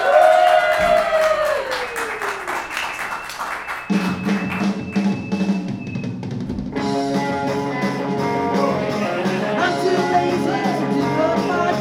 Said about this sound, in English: All right, ladies and gentlemen, now, give it up for Podcrash with that Chris Gore!